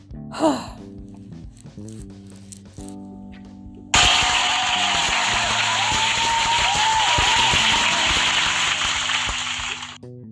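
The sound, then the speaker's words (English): Applause from a crowd bursts in abruptly partway through and holds as dense, steady clapping for several seconds before easing slightly at the end; scattered lighter sounds come before it. “Round of applause for that nigga there.”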